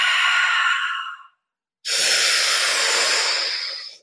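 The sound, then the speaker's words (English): Two long, breathy exhales during guided breath work, each a loud rushing hiss that tapers off, separated by a brief silence. “Exhale. Last push. 1 more minute. Exhale.”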